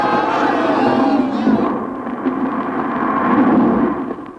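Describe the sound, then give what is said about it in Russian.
The walls of Jericho collapsing, a loud, deep and continuous rumbling roar with rolling surges that tails off at the end. “Да, крепостные стены Иерихона пали.”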